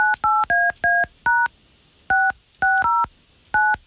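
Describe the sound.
Touch-tone telephone dialing as a call is placed: nine short, clear two-tone beeps in uneven groups, with a pause after the first five.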